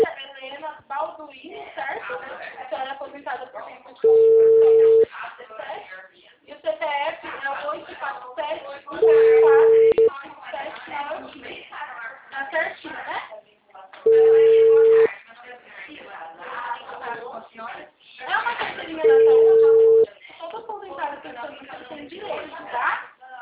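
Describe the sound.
A telephone rings back after a woman hangs up. Four steady, evenly spaced ringback tones about five seconds apart sound beneath nearly continuous talking over a narrow, phone-like line.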